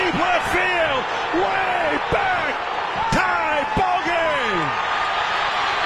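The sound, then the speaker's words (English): Crack of a baseball bat hitting a high fly ball: a sharp woody crack among a few other sharp knocks, over steady crowd noise and excited voices. “Great crack of the bat, by the way, right there. Awesome crack of the bat. Can we hear it again?”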